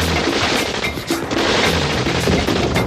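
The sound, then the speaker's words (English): Machine gun fire in a drive-by shooting: a loud, dense, continuous rattle of rapid shots with no clear pauses across the whole stretch. “It sounds like machine guns.”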